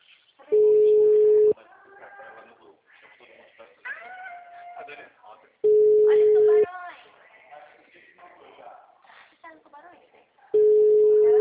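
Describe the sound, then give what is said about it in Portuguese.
Telephone ringback tone while a call is placed: three steady, mid-pitched tones, each about a second long, repeat at even intervals, with mewing, voice-like sounds in the gaps between them. “chamando, vamos ver se ela vai querer atender.”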